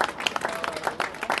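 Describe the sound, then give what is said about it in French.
Applause from an audience at a municipal meeting, many overlapping claps in a brisk, uneven patter across a short burst. “On peut les applaudir.”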